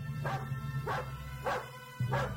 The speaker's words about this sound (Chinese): 这西域灵犬真是威风八面呀！